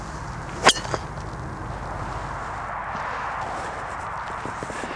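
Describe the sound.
A golf driver with an enclosed head strikes a ball in one sharp, somewhat muted crack, followed moments later by a softer tick, against a steady background hiss.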